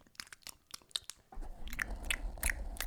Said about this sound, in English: This is the ASMR snack show. Nothing but a lot of lip smacking.